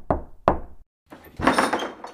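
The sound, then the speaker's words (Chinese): Two sharp knocks on a door sound in quick succession. After a short silence comes a longer, noisy rustling burst. “那我来敲敲门。”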